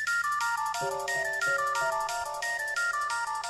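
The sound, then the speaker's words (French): A telephone ringtone signals an incoming call: a bright electronic melody of stepped tones loops steadily, loud and continuous, with no voices. “tu vas recevoir un coup de fil.”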